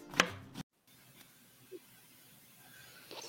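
A knife chops food during cooking prep, with a couple of sharp, crisp chops at the start, then near quiet with only a few faint taps.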